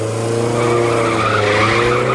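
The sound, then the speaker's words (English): Tyres skid loudly as a car drives off, a steady, unbroken squeal with engine drone underneath that holds for the whole stretch without fading. “They drive off and Brian saunters back to Shirley.”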